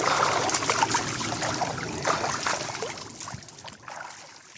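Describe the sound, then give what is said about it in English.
Water splashes and churns as someone takes a dip in a lake in Germany, with a steady run of uneven sloshing and dripping bursts that grows a little sparser toward the end. “That said, for the moment, it just looks like a very beautiful lake on a very beautiful sunshiny day. And I, for one, am going to take a little dip.”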